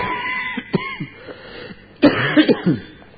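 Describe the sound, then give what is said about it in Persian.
A person coughs. One short cough comes first, then after a pause a tighter cluster of a few harsher coughs follows, fairly loud and with no talk over them. “ما دوباره سرفه هامون شروع شده”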